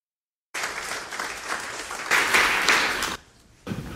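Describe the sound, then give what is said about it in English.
A church audience applauds in a standing ovation: dense, steady clapping that swells louder midway, then drops off sharply before a brief burst of clapping resumes. “I haven't even gotten around to preaching and already I get a standing ovation.”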